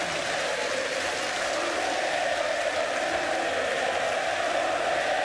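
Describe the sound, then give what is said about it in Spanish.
A live concert audience applauds and cheers in a dense, steady roar of clapping and crowd noise that holds at an even loudness throughout. “Se emocionó el público, enloqueció y él está ahí tranquilito adelante junto con su guitarrista.”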